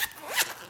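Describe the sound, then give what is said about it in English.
A zipper on a quad's cover is pulled open in one quick, rasping zip lasting under a second, heard on its own. “And that sound you heard was me unzipping the zipper on my quad, just so you know. I was taking the cover off of it.”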